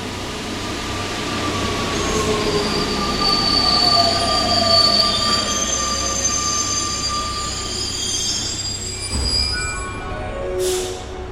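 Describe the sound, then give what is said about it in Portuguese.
A Paris Metro line 12 train runs with loud high-pitched wheel squeal over a constant rolling rumble, with no voices. “Estação Madeleine. Pô, mas não tem nenhum mendigo aqui na linha 12.”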